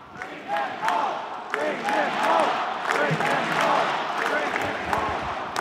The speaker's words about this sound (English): The audience breaks into this chant.